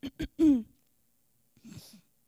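Throat clearing from a tickle in the throat comes as a few quick, rough bursts, the last one voiced and strained, followed after a short pause by a quieter, raspier clearing.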